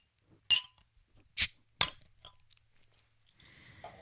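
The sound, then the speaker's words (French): Uncorking a bottle of unfiltered, unpasteurized beer: a few sharp clicks and pops spaced apart, with a faint fizzing hiss after them. “Je vais vous la déboucher dans vos oreilles, je vais arrêter d'en parler.”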